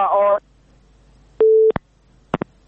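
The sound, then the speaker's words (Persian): Telephone busy tone after a dropped call: a short buzzy tone burst, then a single steady beep, followed by a few sharp clicks, clear and alone. “تماس آقای بهاءالدین را از دست دادیم، قطع شد و میتونن که دوباره هم تماس بگیرن”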